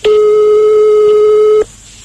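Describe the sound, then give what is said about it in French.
Ringback tone on an outgoing telephone call: a single loud, steady tone holds for about a second and a half, then stops abruptly into quiet hiss. “Donc, on va appeler chez lui? Ben, je sais pas. On va sûrement tomber sur un répondeur”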